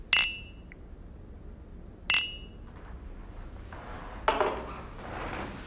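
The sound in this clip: Inexpensive glass clinked three times at evenly spaced intervals. Each strike is a bright, short clink with a brief high ring that fades quickly, set against a quiet background.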